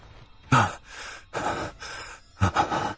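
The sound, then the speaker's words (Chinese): A man gasps for breath after jolting awake in the middle of the night: a series of heavy, ragged breaths in uneven bursts, some sharp and loud, others softer in between. “深夜，陆远突然从睡梦中惊醒，猛然起身，大口呼吸着。”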